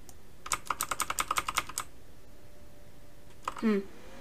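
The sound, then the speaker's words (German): Computer keyboard keys pressed while playing a video game: a quick, fairly even run of about a dozen crisp clicks, then after a pause a short voice. “Wenn ich hier E drücke, passiert nichts.”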